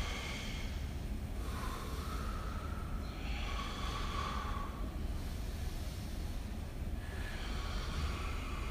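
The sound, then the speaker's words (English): Breathing fills a yoga class: a few long, airy breaths swell and fade in a rushing, hissing wash over steady background noise, with no talk. “Hear that breath and add yours to it.”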